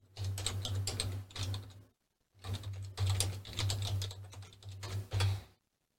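Someone types a web search on a computer keyboard: rapid, clattering keystrokes come in dense bursts, with one short pause near the start, and no one speaks.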